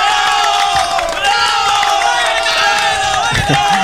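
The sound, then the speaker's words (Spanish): Cheering and whooping in a radio studio booth at the start of a show: loud, continuous shouting from several voices, rough and overlapping, with a brief dip in the middle before the noise picks up again. “Muy bien, aplausos ahí en cabina, por favor.”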